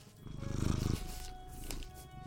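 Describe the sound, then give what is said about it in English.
A black and white cat purring: a low, rhythmic rumble that is strongest in the first second, then continues as a softer pulsing purr to the end. “Can you hear him purring, by the way?”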